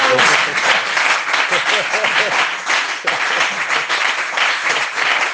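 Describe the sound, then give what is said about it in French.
An audience applauds and cheers after singing at a church gathering, dense sustained clapping mixed with whoops and voices throughout, loud and steady with slight swells. “Et on peut acclamer pour notre chant.”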